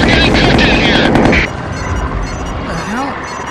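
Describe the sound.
Machine-gun fire and shellfire in a naval combat video game: a loud, dense burst of rapid firing cuts off abruptly, leaving a lower rumbling bed with a brief voice.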